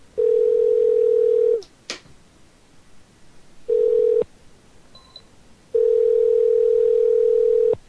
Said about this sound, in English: Now this one number's ringing.